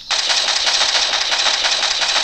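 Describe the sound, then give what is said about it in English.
Rapid automatic gunfire from a first-person shooter video game played on a touchscreen, a harsh, dense, continuous burst of closely spaced shots that holds steady at high volume throughout, with no voices. “Aim and fire at the simulated target. So basically first-person shooter.”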